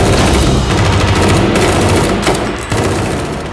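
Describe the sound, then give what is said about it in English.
Gunfire erupts as a team opens fire, a dense, sustained volley of overlapping shots that stays loud and continuous throughout, with no voices. “Open fire!”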